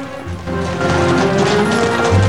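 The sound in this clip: Horses trot along a country road at dusk, pulling a horse-drawn carriage past a low dry stone wall: a steady, loud, continuous rumble and clatter that holds throughout.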